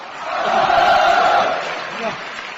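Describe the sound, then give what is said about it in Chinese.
Loud crowd noise with cheering, probably mixed with applause, rises from an audience at a live event where a performer is asked to sing a modern Peking opera laosheng aria. The noise swells in the first seconds, peaks, then eases into a lower, steady roar. “您还给我鼓掌，这是盛情难却。”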